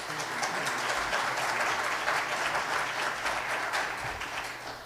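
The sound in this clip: Applause from a church audience welcoming guest speakers, a dense, steady wash of many hands clapping that holds for several seconds and eases slightly at the end.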